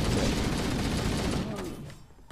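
Rapid gunfire in a shooter video game, a dense, loud, continuous barrage of shots that tapers off near the end.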